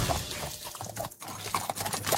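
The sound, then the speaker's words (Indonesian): Hooves of a horse being calmed before it is bathed and fed clip-clop on the ground in many irregular knocks and scuffs, at a moderate level with no voices. “Tenanglah kuda. Kau akan kumandikan dan kuberikan makan setelah selesai”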